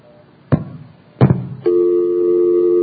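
Two sharp clunks of telephone line switching during a call, picked up through a capacitor bridged across the line, are followed by a steady buzzing tone that continues to the end.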